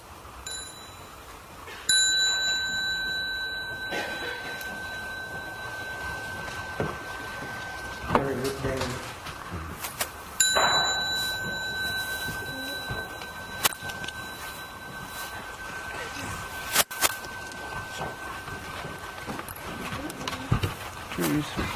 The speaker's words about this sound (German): wenn ihr jetzt die kleine Glocke läuten hört, dann könnt ihr aufstehen